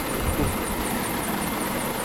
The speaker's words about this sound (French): c'est de là que va décoller l'hélico, c'est un lynx là, qui va nous emmener à bord.